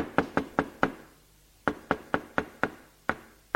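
Knocking on the door of a house: a quick group of four sharp knocks, a short pause, then a longer run of several more evenly spaced raps, firm and clear with nothing else heard.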